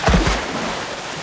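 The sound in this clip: Otters jumping into water make a short, loud splash right at the start, which quickly dies into a low, fading wash of moving water.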